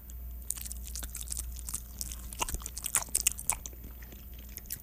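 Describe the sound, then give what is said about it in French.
Chewing and biting on lactose-free cheese gives a faint, steady run of soft crunchy crackles and wet mouth clicks, with no talk over it. “Attention, on va baisser la trame évidemment pour goûter et bien entendre la texture dans les micros.”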